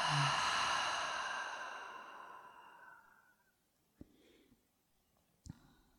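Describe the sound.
Someone lets out a long exhale through an open mouth. The breathy rush starts loud and fades away over about three seconds, and then two brief soft clicks follow in the quiet.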